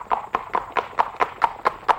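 A horse gallops along as its rider chases a fox, with eight crisp, evenly spaced hoofbeats in a quick, steady rhythm at moderate loudness, with no voices.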